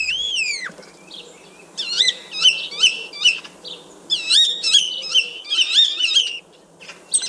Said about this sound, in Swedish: Och det är alltså staren, så den har ett eget ljud också